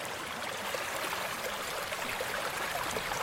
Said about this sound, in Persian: کانال آبه.